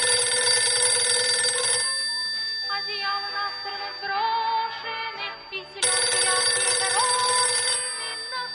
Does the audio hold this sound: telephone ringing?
yes